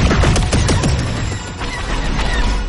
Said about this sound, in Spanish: Ella activa los escudos. Una pantalla muestra los blancos a fin. Él dispara.